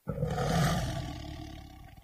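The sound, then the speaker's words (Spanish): A white Bengal tiger roars once in a single long, deep, rasping call that starts abruptly and loudly, holds strong for about a second, then gradually fades over the next second. “os voy a hablar sobre el tigre de Bengala blanco.”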